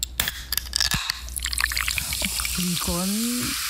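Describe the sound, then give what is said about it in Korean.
A can of Coca-Cola is popped open with a sharp crack, followed by a hissing fizz of carbonation. A voice begins speaking near the end. “뭘까요? 이건 그 음료수 캔 따는 소리인데요.”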